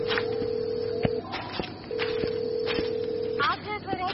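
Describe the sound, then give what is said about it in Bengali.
Ringback tone of an outgoing mobile phone call going unanswered, placed while walking: two long, steady mid-pitched tones separated by a short pause, over a constant noisy background. “বেজে বেজে কেটে গেল।”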